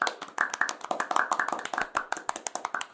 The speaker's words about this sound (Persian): برای چی دست زدین داریم به خودمون محبت میدیم